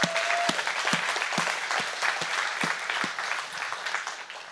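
A church audience applauding at an Easter service: steady, dense clapping that holds at an even level for several seconds before easing slightly.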